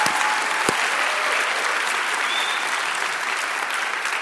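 An audience at a college graduation ceremony claps in a dense, steady wash of applause that holds at an even loudness throughout.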